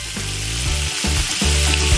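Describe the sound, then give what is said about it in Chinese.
Pork belly stir-fries in very hot, smoking oil, giving a loud, continuous sizzle with stirring heard through it and no talking. “为什么要这么高的油温放这个肉啊？ 这样才能把五花肉的油煸出来，会更香。”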